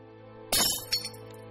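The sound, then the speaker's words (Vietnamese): A flower vase knocked off a table shatters in one sudden bright crash of breaking glass, then a smaller clink follows, over a low steady hum. “Đình Duy tức giận, đạp đổ cái bình hoa trên bàn rồi bỏ đi.”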